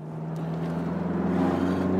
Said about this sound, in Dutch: om een beetje waardering te krijgen voor het merk Alpine, is het misschien het beste idee om te doen wat ik nu doe. Namelijk gaan rijden ja, in eigenlijk het icoon van Alpine en dat is de A110.